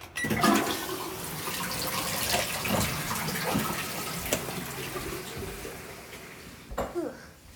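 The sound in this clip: A toilet flushes with a steady rush of water that runs throughout, and a brief louder gurgle comes near the end as the flow continues.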